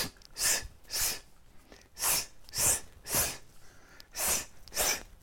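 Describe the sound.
Forceful breathing out: a person pushes air hard in a rapid series of loud, rushing breath bursts at a fairly steady rhythm, with no words spoken.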